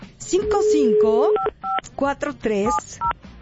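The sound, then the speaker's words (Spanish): Touch-tone keypad beeps as a phone number is dialed to call a contest participant: several short two-pitch tones in quick succession, mixed with a person talking. “Y vamos a marcarle a Oscar”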